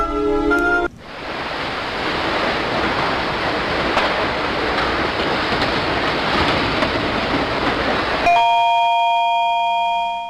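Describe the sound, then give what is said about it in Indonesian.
A mobile phone rings with a call from the phone operator. Short melodic ringtone notes sound at the very start and again near the end, separated by a long stretch of loud, steady rushing noise. “Wah, HP gue bunyi nih. Akhirnya setelah sekian lama ada juga yang bikin HP gue bunyi.”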